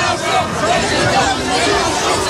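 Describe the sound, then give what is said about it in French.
Dense, steady babble from a crowd of high school students at a street protest march in Paris. Many voices overlap into a continuous hubbub with no single voice standing out. “Le leader de la France insoumise, lui, s'est offert un bain de foule au milieu des lycéens dans la manifestation parisienne d'hier.”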